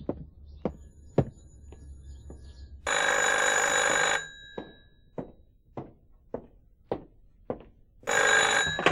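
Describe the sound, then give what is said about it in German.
A telephone rings in an audio drama scene with two long, loud bursts of bright bell ringing separated by a pause filled with a steady series of dull thuds. “Ah, ich gehe ran. Ich erwarte einen Anruf aus dem Betrieb.”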